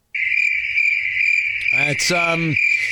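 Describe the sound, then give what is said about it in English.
Crickets chirping as a sound effect: a steady, shrill, high-pitched chirring that starts abruptly and runs unbroken to the end, with a short voice-like sound cutting in briefly near the end. “I don't know why there would be crickets for a raise of hands, but it's radio and it's theater of the mind.”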